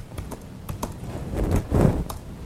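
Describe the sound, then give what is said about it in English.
Typing on a computer keyboard: a few sharp, quick key clicks at first, then a denser, louder stretch of tapping toward the end, with no talk. “We'll type these in.”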